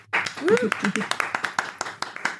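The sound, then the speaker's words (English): Audience applause for a guest begins as a scatter of sharp individual claps, many quick hand strikes under a voice that talks over them. “Please give a big round of applause for Belle Rabirati.”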